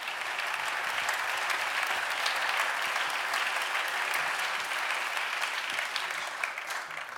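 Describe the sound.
Steady applause from a concert audience: dense, continuous clapping that holds at an even loudness for the whole stretch, with no clear voices rising above it.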